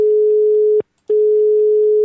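Telephone call signal while dialing out: two long, steady, mid-pitched tones separated by a short silent gap, clear and alone.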